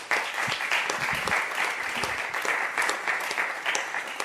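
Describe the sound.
Applause for a speaker at a church gathering, a steady patter of many hands clapping at moderate loudness throughout, with no break or speech over it.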